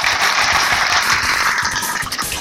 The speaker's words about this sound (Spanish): Por eso para el Cabildo del Adulto Mayor pido un cariñoso aplauso.